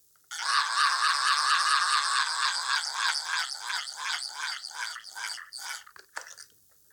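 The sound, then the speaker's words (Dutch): A borrowed bosduivel, or forest devil instrument, lets out a loud, raspy, scream-like wail with a rough pulsing texture, stuttering and breaking up before it stops after about six seconds. “Ja, ik heb speciaal voor deze gelegenheid een instrument geleend, moet ik zeggen. Het is de bosduivel. Ik zal hem even laten horen.”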